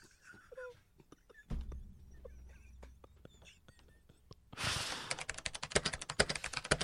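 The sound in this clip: Rapid typing on a computer keyboard while filling out a form: a quick run of many sharp clicks near the end, after a quieter stretch with faint soft voice sounds and scattered taps.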